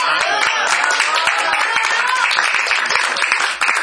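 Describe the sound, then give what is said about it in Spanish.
Audience applause, a dense and even rush of many hands clapping together that holds at a steady level for nearly four seconds before dropping off sharply at the close. “Y bueno, un aplauso también para”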